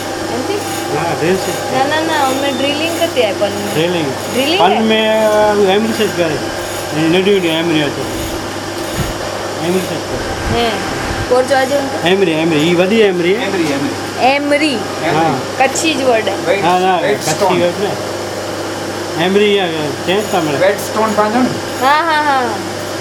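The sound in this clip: A motorized carving and polishing machine runs continuously with a steady whirring drone and a low hum underneath. The noise stays loud throughout while people talk over it.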